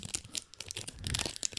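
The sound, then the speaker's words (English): Wrapper crinkled for ASMR relaxation, many soft, irregular crackles and crisp rustling bursts, quiet and close, with no voices. “It's ASMR. It's people whispering to relax you so you can fall asleep. And then they'll take like a wrapper”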